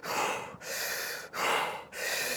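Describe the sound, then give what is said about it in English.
Several deep, rushing breaths are drawn in as preparation for a duck dive, each a loud, airy gasp of steady length separated by brief pauses. “and then you've already got like those three giant breaths. You've opened up the lungs so then you can hold your breath for a long time”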